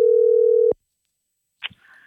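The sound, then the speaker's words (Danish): A telephone dial tone heard while calling back a company: a steady low tone that cuts off abruptly after under a second, followed by silence and a brief faint noise. “La på. Vi ringer igjen.”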